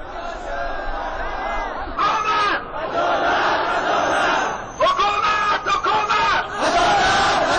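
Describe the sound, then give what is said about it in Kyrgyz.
Thousands of Hazara protesters shout in the streets of Kabul, demanding justice. Loud rhythmic chanting comes in repeated surges broken by short pauses. “Колдоруна өкмөткө каршы ар кандай жазууларды көтөрүп алган миңдеген хазарлар бүгүн Кабулдун көчөлөрүндө адилеттик, адилеттик, бизге адилеттик керек деп кыйкырып жүрүштү.”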